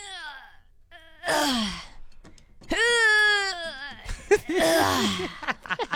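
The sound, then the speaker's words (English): A voice imitates a weak person straining at weightlifting, with a few strained moans and groans separated by pauses, wavering in pitch, followed by short, breathy gasps. “This is a weak person weightlifting.”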